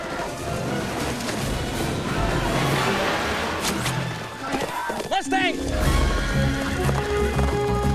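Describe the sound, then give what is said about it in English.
A black mustang rears up and neighs on the edge of a bluff during a lasso chase: one loud whinny rises out of a dense, noisy bed of hoof clatter and rushing sound. “The Mustang stops on the edge of a bluff and rears up.”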